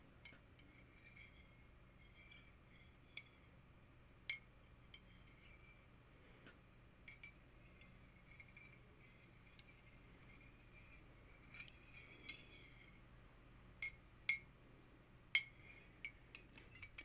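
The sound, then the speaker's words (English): A spoon clinks against a cup while stirring a drink. A handful of faint, sharp metallic taps land at irregular intervals over a quiet background hiss. “Here, I'll go ahead and stir it for you.”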